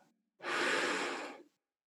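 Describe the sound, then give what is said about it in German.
One deep breath is drawn in during a breathing exercise, a single loud, airy inhalation lasting about a second that rises quickly and fades out, with nothing else heard. “Einatmen bis in die Lungenspitzen”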